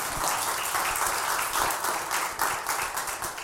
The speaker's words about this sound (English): So let's just give it up for Stacy for emceeing this morning.